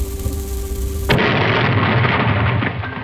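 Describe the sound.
Cheap, unpainted home heating coal explodes with a sudden loud blast that cuts through a low, steady hum. The blast becomes a long, rumbling roar that slowly fades.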